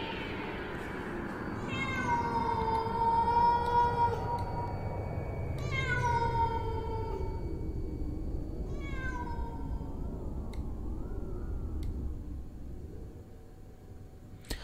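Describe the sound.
A cat meows mournfully at night, giving a few long, drawn-out, wavering cries over a low rumbling background noise.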